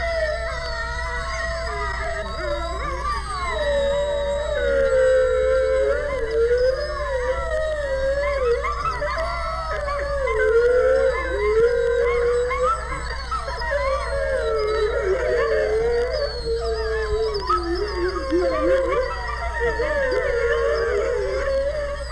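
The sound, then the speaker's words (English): Wolves, coyotes and wild dogs in a canyon howl together in a wild chorus. Overlapping, wavering howls rise and fall continuously, loud and unbroken, with higher yips layered over the sustained calls. “a full moon or a siren will start the entire canyon of animals calling. Wolves, coyotes, wild dogs, all joined together in a wild chorus that sounds like this.”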